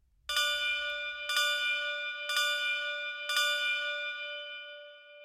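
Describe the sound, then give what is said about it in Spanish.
Four church bell strikes ring out the quarters before the midnight hours, each one a bright, loud metallic tone about a second apart. The last strike hums on and slowly fades. “4 campanadas, que seran els quarts. Tocaran 4 campanadas. Serán los cuartos.”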